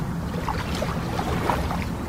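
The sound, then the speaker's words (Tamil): Boat oars push through calm river water on a boat trip at Bhedaghat near Jabalpur, making a steady wash of soft swishing and gentle splashes, with no voices. “அதே வேளையில தண்ணீரை தள்ளுவதற்காக படகின் துடுப்புகள் எழுப்பும் ஒலி”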